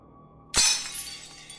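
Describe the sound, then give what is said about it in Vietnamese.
Something falls and shatters at a front door with one sudden, sharp crash. Bright, rattling debris follows and fades away over about a second, with no other sound. “Chợt có tiếng rơi vỡ ở cánh cửa phía trước.”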